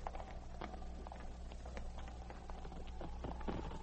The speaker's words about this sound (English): Two Mounties riding up the trail away from the cabin.